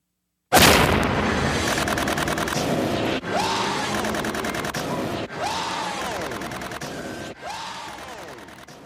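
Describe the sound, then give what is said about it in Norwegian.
Machine gun fire in a film scene: loud, sustained rapid-fire rattling with dense, fast shots, broken by a few brief gaps before resuming. “til dem som håpa at det her var Arnold Schwarzenegger som skjøt med maskingevær”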